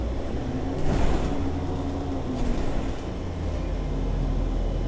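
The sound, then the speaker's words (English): A bus pulls away with a steady, low engine drone and rumble, swelling slightly in the first seconds, then holding a deep, even hum throughout with no voices. “And there go the bus. Look, I was gonna miss the bus anyway.”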